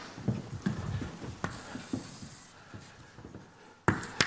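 Pen or marker writing in red on a board or tablet during a maths lecture makes faint, scratchy strokes in short irregular bursts, with a couple of sharper, louder strokes at the end.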